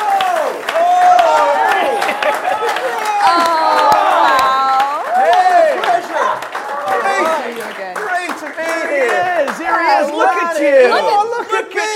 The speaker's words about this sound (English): Yeah, so please put your hands together and give a warm pod welcome to Ireland!